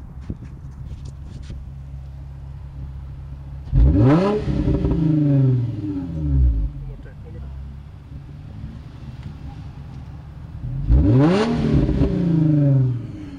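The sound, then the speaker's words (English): Engine revving from a mostly stock 350 car with Flowmaster exhausts: two loud surges that swell and fall away in pitch over a steady low idling rumble. “that's the sound of a 350, pretty much stock, and that's a young man that we're pretty much the same age, but nevertheless, that's a young man that has a silver 350, and it sounds absolutely cool with Flowmasters on it”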